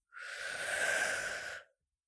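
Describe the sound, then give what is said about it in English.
A single long inhaled breath during a guided relaxation, a soft, airy, steady draw lasting about one and a half seconds, heard alone with no talk. “Now, close your eyes and, as always, breathe in,”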